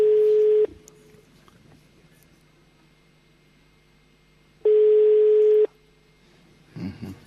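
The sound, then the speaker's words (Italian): A telephone ring tone sounds twice, each ring a long, steady, mid-pitched beep, separated by a silent pause of several seconds, followed by a brief low sound at the end. “Non rispondo. Squilla il telefono.”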